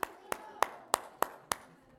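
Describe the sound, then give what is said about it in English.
Six sharp, evenly spaced hand claps ring out at a slow, steady pace during a Wednesday night church service, each crisp and fairly quiet with a short decay. “Everybody, round of applause.”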